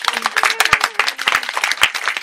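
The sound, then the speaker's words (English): Applause at the close of a live evening event, loud, sharp claps from the crowd in an uneven, fairly loose patter that runs without a break. “a huge round of applause for yourselves for coming”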